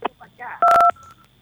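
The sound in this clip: A telephone call connects with a single short, loud two-tone electronic beep. A voice speaks just before it.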